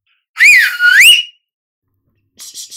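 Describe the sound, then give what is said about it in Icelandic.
Loud human whistling: a long whistled phrase that swoops down and then up in pitch. After a pause come a few shorter, fainter whistled notes. “Hurðaskellir blístraði hátt og sama gerði Viktor.”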